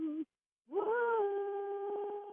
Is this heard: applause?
no